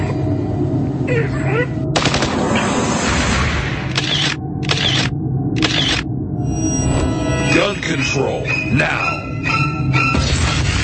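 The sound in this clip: Machine-gun fire rattles in a long, dense burst of rapid shots, loud and nearly continuous, broken by a few brief cut-outs.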